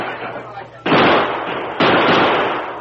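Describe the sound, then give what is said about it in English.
Gunfire in a radio drama shootout: two loud, sharp blasts about a second apart, each followed by a roar of noise that slowly fades. “Drop over the side of the force, but keep firing.”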